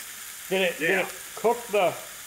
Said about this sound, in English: So while we're waiting for this ribeye to cook,